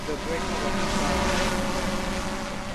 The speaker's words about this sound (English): testing their quad-rotor UAV. This is our drone with the vision computer.